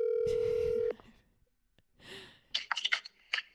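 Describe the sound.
A phone call ringing out on speakerphone: one steady electronic ring tone holds loudly, then cuts off abruptly, followed by a quiet breathy sound and a few brief bursts of voice.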